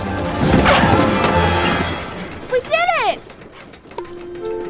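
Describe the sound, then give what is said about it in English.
Cartoon crash of a small plane landing on top of a bus: a loud, rumbling smash, then a quick falling whistle-like slide in pitch, and a brief steady tone near the end. “She looks out and realizes she has landed on top of a bus.”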